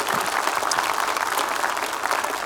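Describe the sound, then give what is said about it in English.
A church audience clapping together to greet one another during a service: a steady, even patter of many hands, moderately loud and continuous throughout. “Let's put our hands together in all of our rooms and greet your church family here today.”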